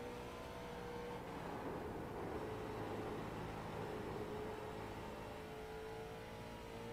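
A race car engine drones through a lap in the iRacing simulator, a faint, steady whirring hum with a continuous engine tone and no clear revving peaks.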